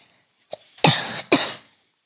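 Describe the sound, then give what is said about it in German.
Two harsh, breathy coughs from a person with a slight cough, preceded by a faint short catch of breath, each burst broad and noisy, followed by quiet. “Also wenn du schon so ein bisschen hustest, und wir hoffen mal nicht, dass das diese schlimme Krankheit ist”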